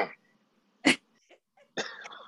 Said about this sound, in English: Let's not all cough at once.